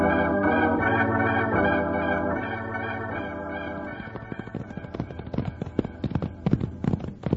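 Horse hooves galloping and clip-clopping on a western chase, a quick, irregular clatter of sharp beats that takes over as the music fades away.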